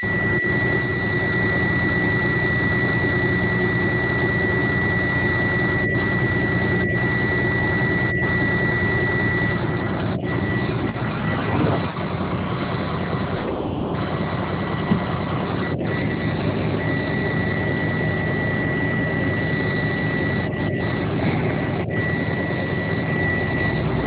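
A vehicle engine keeps running and does not shut off, a continuous droning hum topped by a steady high whine. A few brief clicks break in now and then, and the engine goes on unchanged throughout.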